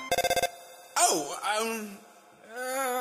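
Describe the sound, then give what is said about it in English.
A video game phone rings with a brief burst of rapid, high electronic pulses. Then comes a character's wavering, wailing voice sound. “I'm sorry, human, that was my phone ringing.”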